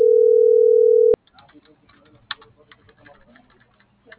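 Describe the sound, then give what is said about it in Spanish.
A steady, loud telephone line tone holds for about a second as a call is dialed, then cuts off into faint clicks and soft tapping, with quiet voices. “está marcando. Se le estaba marcando.”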